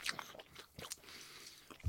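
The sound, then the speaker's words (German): Chewing of Kaiserschmarrn with vanilla ice cream: faint wet smacking and soft crunchy mouth sounds arriving in a few irregular bursts. “die Schmatzgeräusche sind Kaiserschmarrn und Vanilleeis.”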